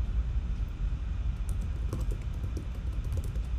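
Typing on a computer keyboard while writing an email: scattered soft, quick key clicks over a steady low rumble.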